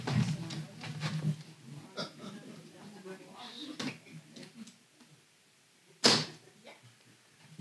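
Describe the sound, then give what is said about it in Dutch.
A suitcase lock is opened with a few sharp, distinct clicks among faint handling and rustling noises. A soft low murmur is heard early on. “Eén slot is al open. Dat is goed nieuws. Nu nog het tweede.”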